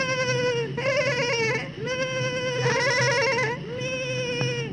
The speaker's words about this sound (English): the goats join the chorus with us,